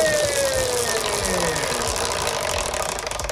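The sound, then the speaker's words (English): A prize wheel given a big spin rattles out a steady stream of rapid ticking clicks over a continuous whirring background. No other sound stands out. “Do you want me to give the wheel a spin? Yeah. A big spin or a little spin? Big, please. Here we go.”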